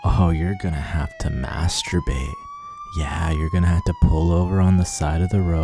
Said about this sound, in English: You hear that? That's the sound of a siren.